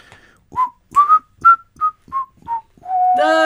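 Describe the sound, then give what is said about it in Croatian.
A person whistles a cheerful tune while acting out a worker at his job: around eight short, bright notes in a bouncy rhythm, closing on a longer held note, loud and alone without talk. “Da, zviždanje je dobro, samo ne tako veselo, nisi valjda sad tako sretan da radiš.”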